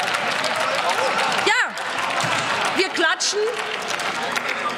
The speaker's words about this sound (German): wir klatschen, weil wir an die Bürgerinnen und Bürger denken und was sie nicht tun.